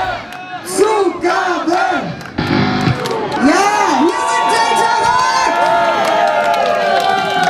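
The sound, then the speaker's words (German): A concert crowd cheering and shouting at the end of a live rock gig, with loud whoops and yells rising and falling in bursts, then settling into a continuous roar of cheering. “Und ihr wisst, wie das normalerweise bei denen läuft. Also gegen Ende des Gigs klingt es bei Delta Rock immer so.”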